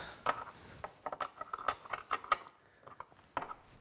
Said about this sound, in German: Schöne Schraube hier anziehen, meine Güte.